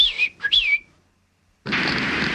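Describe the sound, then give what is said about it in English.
Two short whistled calls from a person whistling to summon someone, each a bright, loud phrase gliding downward in pitch. A pause follows, then a sustained loud hissing noise. “The pilot has gone out again. I whistle for him.”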